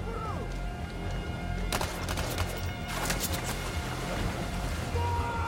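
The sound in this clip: A rushing, turbulent river current sweeps a swimmer along in a strong flow. Continuous roaring water noise with scattered splashes plays while a narrating voice speaks over it.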